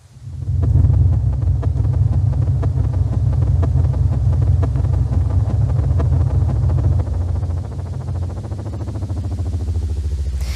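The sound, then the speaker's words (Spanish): Accelerated sonification of a star's oscillation frequencies, built from scientists' data: a loud, steady low drone carrying rapid, regular pulsing overtones. It drops slightly in level about two-thirds of the way through, then continues to the end. “¿Ese es el sonido de la estrella? ¿Ese que estábamos escuchando? Acelerado, claro.”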